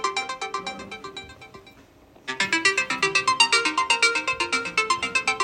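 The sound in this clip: A mobile phone ringtone for an unwanted advertising call plays as a bright, repeating electronic melody. It breaks off briefly, then resumes louder with evenly pulsed notes.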